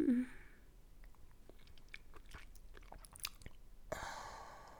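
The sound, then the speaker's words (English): Faint chewing and biting on a popsicle: many soft, irregular crunchy clicks and wet smacks, quiet throughout. “This popsicle tastes so fucking good.”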